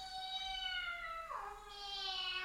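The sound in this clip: A single drawn-out cat meow, smooth and tonal, that drops in pitch partway through and then holds. It is fairly quiet and has no other sounds around it.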